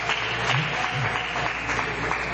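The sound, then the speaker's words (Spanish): Applause in a church for a sister: dense, steady clapping from a gathered group that continues throughout at an even level, over a low hum. “Eso, hermana, con ganas. Amén, un aplauso. Que usted se lo ganó.”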